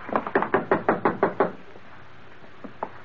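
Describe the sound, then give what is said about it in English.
Knocking on a door: a quick, evenly spaced run of many firm knocks, then a pause and two faint taps, heard alone without voices. “Then I'll do the knocking.”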